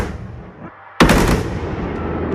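Fireworks fired from an electric firing table at a display: a low rumble, then a sudden loud bang that opens into a sustained crackling roar lasting to the end.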